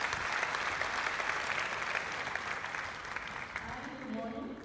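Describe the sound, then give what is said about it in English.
Applause from a church audience welcoming a speaker to the front, a steady wash of clapping that eases slightly toward the end. “Come, let's put our hands together and welcome Wendy.”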